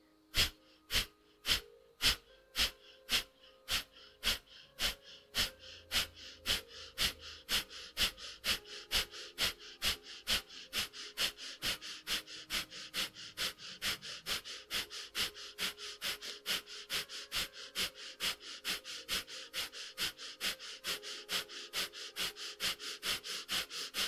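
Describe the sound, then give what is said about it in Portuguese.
Rhythmic, forceful breathing in and out through the nose during a breathing exercise: many short, sharp sniff-like breaths in a steady, fast, even pulse. The first breaths are louder, and no voices are heard. “Vamos inspirar e começar.”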